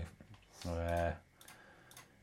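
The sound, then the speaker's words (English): Computer mouse clicks and keyboard taps come through as a few faint, sharp ticks around a brief voiced sound, while someone browses car listings on a computer. “Let me change it. Let me click here. This is good podcasting. So what we're doing at the moment is we're clicking on Auto Trader, which is a good visual thing for you.”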